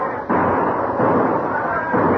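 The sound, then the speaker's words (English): A salvo of gunfire from an oncoming warship: heavy booming blasts rumble loudly in a few overlapping surges, forming a dense, sustained roar with no clear gaps. “Then came a salvo of gunfire from the oncoming vessel.”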